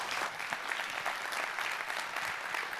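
Audience applause welcomes a family onstage to share their adoption story at a church gathering. The clapping is steady and dense, with no break and no voices, across the whole stretch.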